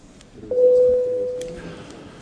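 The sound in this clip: Parliament voting bell sounding in a legislative chamber as a vote on an income tax bill opens: one steady electronic tone lasting under a second, moderately loud over low room noise.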